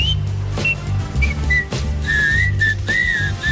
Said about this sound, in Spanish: Voy a ponerte algunas de esas canciones que han integrado como un instrumento más un silbido.